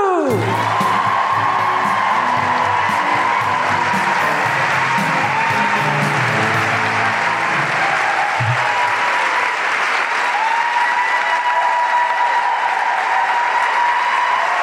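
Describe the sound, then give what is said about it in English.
Audience at a live comedy show in Melbourne welcoming a performer with loud, sustained applause, punctuated by whoops, cheers and scattered shouts that carry through the long stretch of clapping. “So put your hands together and make incredible Melbourne guilty feminist welcoming riotous orgiastic noises for the incredible Amao Leota.”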